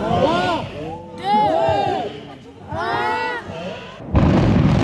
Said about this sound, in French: on a dynamité la tour Kennedy, 28 étages de haut, construite en 1969. Elle était devenue vétuste et inadaptée, disparition suivie en direct par ses anciens habitants.